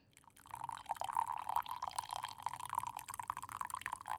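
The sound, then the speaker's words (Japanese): Hot water poured in a small amount onto loose tea leaves: a steady trickling pour that starts after a brief quiet moment and runs evenly for about four seconds, soft and alone. “茶葉ってこれだけじゃないんだよ。ほんの少しだけお湯を入れて、”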